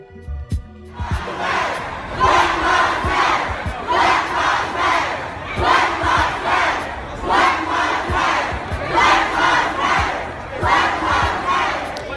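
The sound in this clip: A street protest crowd against police racial violence chants Black Lives Matter, loud massed voices repeating the phrase in regular rhythmic waves, about every two seconds, across the whole stretch.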